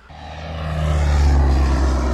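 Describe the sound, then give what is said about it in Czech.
Small propeller airplane banking in a turn over an airfield, heard from inside the cockpit as a deep, droning engine roar that swells over the first second and then holds steady and loud. “A jsem přímo vlastně v kokpitu malého letadelka, které se teď vznáší nad Kunětickým letištěm. Teď zatáčí, vidím Kunětickou horu.”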